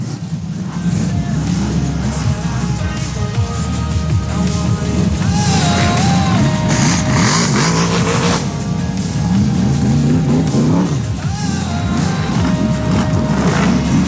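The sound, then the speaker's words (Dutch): Racing motorcycle engines roar and rev in a loud, continuous blare whose pitch keeps shifting, as one bike with a small problem is cranked to start on the second day of a race event. “Gelijk alweer hier een klein beetje problemen. Moet even aangeslingerd worden.”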